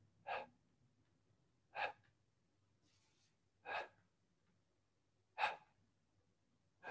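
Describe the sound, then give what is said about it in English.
Soft breathy huffs of exhalation pop out as the heels drop to the floor during a relaxation exercise, made a little louder than natural. The huffs are short and evenly spaced about two seconds apart, with quiet between them. “I'm doing it a little bit louder than is natural so you can hear something, but don't try to force air out. Just allow the natural little exhalation to pop out on its own.”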